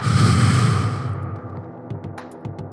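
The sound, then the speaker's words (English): A deep breath in and out makes a long airy rush that is loud at first and then fades away, with a few faint soft clicks after it. “My breath's heavy. My mind overwhelmed. Deep breath in. Deep breath out.”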